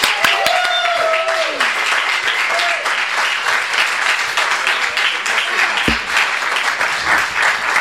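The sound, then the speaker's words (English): Audience applause welcomes an author to the stage at a bookstore reading of a short story collection. Dense, steady clapping keeps a loud, even level for about eight seconds. “Give him a big welcome with me. Put your hands together for Richard Lehane.”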